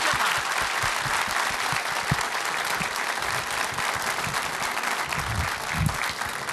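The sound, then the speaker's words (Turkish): Applause for folk singers of a Turkish folk music choir, a steady, thick patter of many hands clapping without a break from start to finish. “Bir alkış istirham edeyim efendim.”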